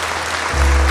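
Applause from a crowd at a Portuguese-language religious service: dense, steady clapping that holds throughout and swells a little louder in the second half.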